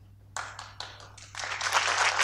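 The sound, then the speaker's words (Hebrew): An audience claps after a live software demo at a talk. A few sparse, separate claps build into denser, louder applause, with a faint low hum underneath. “תודה רבה, סוף סוף כפיים.”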